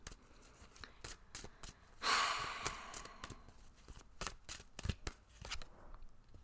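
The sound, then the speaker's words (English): Tarot cards are shuffled before a card is pulled. A quick, brighter riffle of cards rises out of many soft, scattered taps and slides, all quiet and without talk. “All right, people, let's go ahead and pull a card for the week.”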